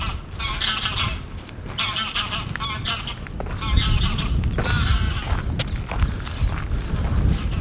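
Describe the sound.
Honking from a flock of geese flying over a mosquito-breeding wetland: many loud, overlapping nasal calls repeat in irregular bursts throughout, growing slightly fuller toward the end.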